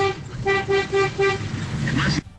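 A car horn honks in a quick run of short, evenly spaced toots, bright and buzzy in tone, before the sound cuts off abruptly.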